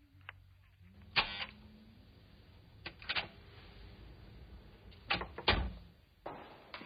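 A door is opened after an answer at the entrance, heard as a few sharp clunks and clicks scattered over a low, quiet background, with no voices.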